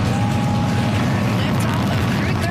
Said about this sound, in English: That is the sound of the beginning of a great adventure for Joshua Kutrick, the Canadian astronaut on board the Falcon 9 rocket that launched this morning from Cape Canaveral.